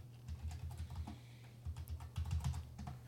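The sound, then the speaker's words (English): Quiet rapid keystrokes on a computer keyboard as a search is typed in, many soft clicks in uneven bursts with no talking. “Let's see, type in foot. Put Bellew fight or Bellew.”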